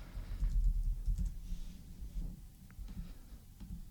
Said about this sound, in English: Here, just type it in and see if there's an article so we can, maybe someone wrote something about what happened.